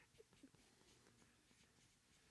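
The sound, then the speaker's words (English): Marker writing on a board, a faint, continuous scratchy rubbing with a few brief squeaks near the start and no voices. “it's so hard for me to write on the board here.”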